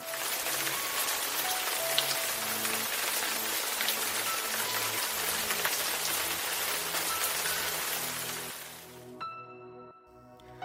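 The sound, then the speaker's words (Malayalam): Heavy rain pours down in a loud, dense, steady hiss of countless drops that fades away near the end. “പെരുമഴ തിമർത്തു പെയ്തു”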